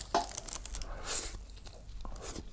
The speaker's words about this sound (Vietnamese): trước khi bắt đầu thì mình xin được phép ăn một miếng bánh trộn để um, thưởng thức xem cái hương vị ở chỗ này nó như thế nào.